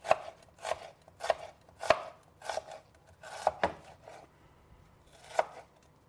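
Onions are chopped with a knife in slow, unhurried, slightly uneven strokes, each one a crisp, distinct chop separated by short pauses.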